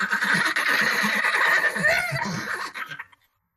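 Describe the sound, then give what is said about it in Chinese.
Horse hooves gallop in rapid, rhythmic thuds under a rushing wash of noise, with a horse neighing partway through before the sound cuts off and fades at the end. “传来急促的马蹄之声。”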